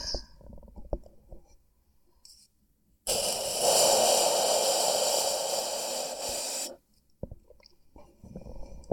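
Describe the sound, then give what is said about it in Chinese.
Close breathing right into the microphone: quiet mouth clicks, then one long, loud, airy breath of about three and a half seconds that stops abruptly, followed by faint clicks again. “我的呼吸是不是听得非常的清晰？”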